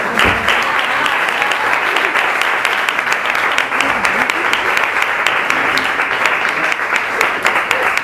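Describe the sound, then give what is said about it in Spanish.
Audience applause for a guest at a film-themed presentation: dense, steady clapping that stays loud and even for the full eight seconds without a break. “un fuerte aplauso para María Cañas”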